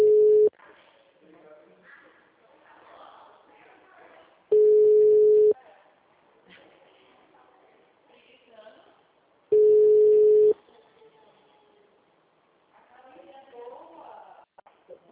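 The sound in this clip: Repeated steady telephone tone after a dropped call: three flat, mid-pitched beeps, the first cut short, spaced about five seconds apart, with talk and background voices between them.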